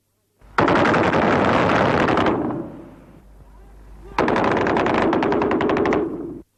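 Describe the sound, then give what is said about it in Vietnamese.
Mortar fire bursts into a wartime market in two long, loud volleys of rapid, crackling shots, separated by a quieter rumbling lull. “Bỗng một loạt súng cối bắn vào chợ, mọi người tản đi, còn lại Trúc và Nga”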